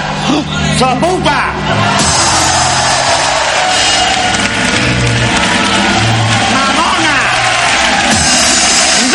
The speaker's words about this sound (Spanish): La gente aplaude